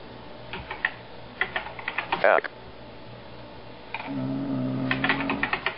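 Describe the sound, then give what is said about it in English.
Someone types on a computer keyboard, entering text into a barcode menu. Quick bursts of light key clicks come in clusters with short pauses between them, and a voice is briefly heard alongside. “So I'll just type in something silly like”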